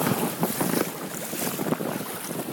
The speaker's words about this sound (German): Quasi auf die Wellen der vorbeifahrenden Schiffe warten.